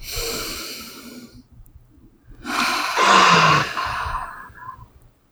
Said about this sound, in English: So deep breath.